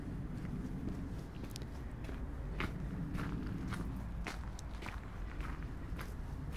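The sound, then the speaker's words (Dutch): Faint footsteps walk through a gate into a pinetum, a tree garden. The steps are soft and irregular over a quiet, steady background. “Ik loop door de poort naar binnen.”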